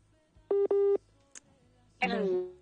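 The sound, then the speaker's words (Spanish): Telephone busy tone after a dropped call on a radio call-in line: two short, loud beeps in quick succession, then a faint click, followed by a voice starting to talk. “Cae la llamada, sí, he querido comunicarme, pero no he podido.”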